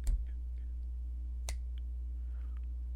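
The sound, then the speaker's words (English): Two sharp, isolated clicks of a woman's high heels walking, one at the very start and a second after a slow pause, over a steady low hum with no other sounds. “You hear the clicking of her heels.”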